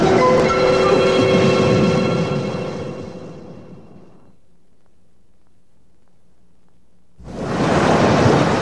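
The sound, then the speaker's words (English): A thunderous sound effect of ice cubes falling inside a freezer: a loud, dense roar that fades into near silence, then bursts back in abruptly at full strength. “Robin shouted above the thunderous noise of the falling cubes of ice.”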